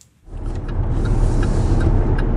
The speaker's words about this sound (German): Ich folge mit dem Auto in Nordhessen bei Kassel der Melsunger Forstamtsleiterin Petra Westphal.